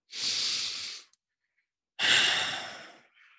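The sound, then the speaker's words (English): A person takes a deep breath: two long, airy breaths separated by a short silence, the second one louder and slowly fading, with no talking. “Do me a favor. Close your eyes. Take a deep breath.”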